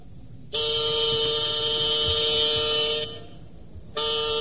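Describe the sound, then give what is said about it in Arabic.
A car horn honking: one long, steady, loud blast of about two and a half seconds, then a brief pause before a second honk begins at the end. “التفت التفت يلا صحب الزمور التفت التفت التفت التفت”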